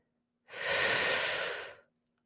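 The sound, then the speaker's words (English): A single deep breath, a long, airy rush that swells quickly, holds, then fades over about a second and a half, with nothing else around it. “Let's take one more deep breath.”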